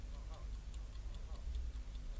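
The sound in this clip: An alarm clock ticks in a mountain hut buried by an avalanche. Many faint, fast ticks come at an even rhythm over a low, steady hum.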